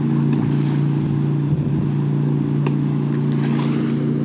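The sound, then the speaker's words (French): An outboard motorboat passes while towing a water skier, its engine a steady, loud, low drone that holds throughout with little change. “Désolée, il y a un hors-bord qui passe et qui fait. Il y avait quelqu'un qui fait du ski nautique.”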